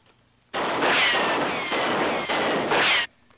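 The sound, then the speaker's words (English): Gunfire with bullets pinging as they ricochet off a body: a loud, dense burst of shots lasting about two and a half seconds, with thin whining ricochet pings sweeping through it, then a sudden stop. “Well, it sounds like shots, but I can't figure out what those pings are in between. It's the sound of bullets bouncing off of Superman's body.”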